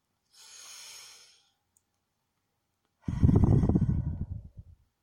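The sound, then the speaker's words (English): Slow breathing during a cool-down after a gym workout: a soft, airy inhale, then after a long pause a louder, rougher exhale that trails off. “Breathe slowly”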